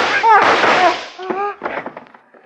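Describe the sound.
Gunshots from a gun follow a shouting voice as a few sharp, loud bursts in quick succession, fading out toward the end.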